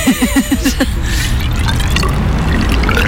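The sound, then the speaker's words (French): Water poured into a pump to prime it. A quick run of gurgling glugs gives way to a loud, steady rush of pouring liquid. “Donc là, pour amorcer la pompe, on va un peu mettre de l'eau dedans.”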